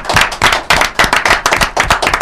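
Loud hand clapping from an audience during a tribute to a man named Fukui on a show: many sharp, crisp claps in a fairly regular pulsing rhythm, with no talk over them.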